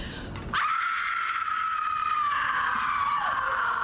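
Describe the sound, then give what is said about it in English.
A woman screams in a TV drama scene: one long, piercing, sustained cry that starts abruptly, holds a steady, loud pitch for several seconds, then dips lower near the end. “we were talking about Meryl Streep's scream on Big Little Lies from Sunday night. Or it sounds like this, right?”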